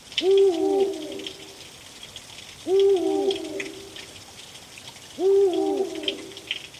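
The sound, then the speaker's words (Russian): Eagle owl hooting, three evenly spaced deep hoots with a short falling tail after each, clear and loud over faint background hiss. “Ушастая сова. Филин.”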